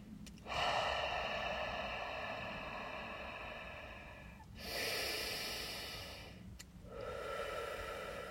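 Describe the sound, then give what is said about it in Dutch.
Deep, slow breathing in and out: long airy rushes of breath, about three drawn-out phases, each rising then easing off, fairly faint over a steady background hiss. “En ik haal ook diep in en uit adem.”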